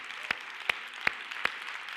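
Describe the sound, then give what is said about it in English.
Four sharp hand claps at an even, steady beat stand out over a continuous low wash of noise as a church audience claps during a sermon. “Somebody clap your hand for that promise.”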